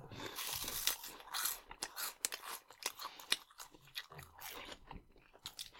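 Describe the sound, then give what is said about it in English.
Crunching of Reese's Puffs cereal, a crisp extruded cornmeal cereal, being chewed: many irregular crisp crunches and bites follow one another closely at moderate loudness, with no talk. “let's get into some puffs. Reese's Puffs.”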